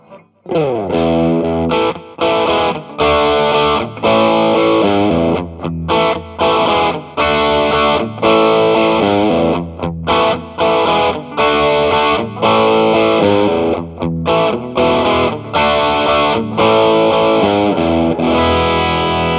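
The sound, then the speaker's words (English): Distorted lead tone from an effects pedal at its favourite settings: loud, gritty, harmonically dense notes played in quick, choppy bursts with short gaps between them throughout. “And now, as always, we'll start with my favourite settings on the pedal.”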